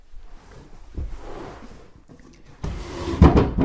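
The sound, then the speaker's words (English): Clothes drawers are opened and closed in a home. Soft knocks and rubbing, sliding scrapes build into a louder rattling stretch toward the end. “Here's some drawers where all my clothes were at one point.”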